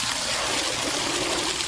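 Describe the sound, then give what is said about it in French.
Water splashes and trickles steadily as children water plants in a market garden in Bougouni, a dense, continuous wash of spattering that holds level throughout. “Au moment où les femmes désherbent, les enfants arrosent.”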